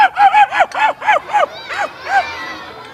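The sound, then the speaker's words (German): A person's voice imitates a dog barking: a quick run of sharp, yappy barks with a strong pitched tone, then a few slower, more drawn-out barks trailing off. “Ein Hund, ja, das ist ein Hund, ja.”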